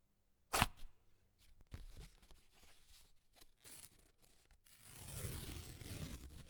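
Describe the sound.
A paper envelope is torn open: one sharp rip, then softer tearing and rustling, and a longer rough scraping tear near the end, all fairly quiet.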